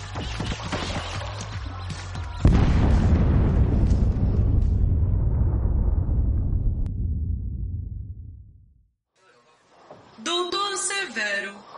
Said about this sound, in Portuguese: o transmissor explodiu e acabou causando uma sobrecarga no nosso sistema.